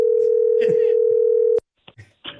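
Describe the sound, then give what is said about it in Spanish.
A telephone dial tone follows a disconnected call, a steady unbroken electronic tone lasting about a second and a half with voices over it, then cutting off abruptly before brief talk. “Oh, se desconectó la llamada”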